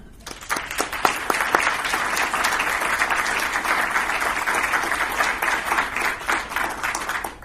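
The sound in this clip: Audience applause welcomes a speaker to the podium before a history talk: dense, steady clapping from many hands that holds at an even level for several seconds, then eases slightly at the end.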